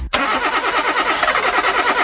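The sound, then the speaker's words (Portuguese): A car engine cranks as it struggles to start on a dead battery. A loud, continuous, rhythmic churning begins abruptly and carries on for about two seconds. “Seu carro dormiu no ponto e a bateria pifou?”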